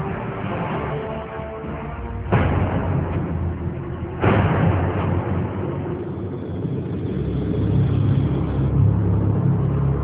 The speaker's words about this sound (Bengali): গাড়ি চলছে